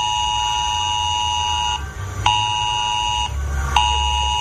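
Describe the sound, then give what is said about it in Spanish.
Loud electronic alert tone from mobile phones sounding a civil protection flood warning for heavy rain on the southern Alicante coast: a steady, bright beeping tone in three stretches broken by two short gaps, with a low rumble beneath. “nos sobresaltaban nuestros móviles. Era una alerta de protección civil del sistema S-Alert, avisando del riesgo de inundación en el litoral sur de Alicante por fuertes lluvias”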